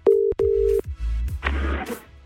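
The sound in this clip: Telephone dialing tones while calling a pizzeria: two short, steady electronic beeps in quick succession, then a stretch of rough, noisy rustle.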